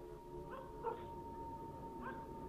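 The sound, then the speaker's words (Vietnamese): Dogs howling and yelping at night on a village road leading toward the village gate, a few faint, wavering cries rising out of steady low background noise. “Ở bên ngoài kia, nhấm nhẳng có tiếng chó cắn ma vang lên trên con đường làng, hướng ra chỗ cổng làng.”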